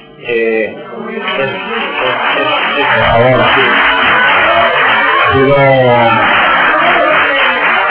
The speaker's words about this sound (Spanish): Pido al público que mantenga la calma y el respeto. Lo pido, por favor, estamos ante una institución plenaria. Pido que mantengan el silencio, por favor.